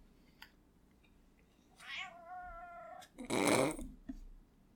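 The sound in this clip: A cat meows in one drawn-out, harmonic call that slides upward at the start. A louder, rougher, noisier burst follows it, with a low steady hum underneath.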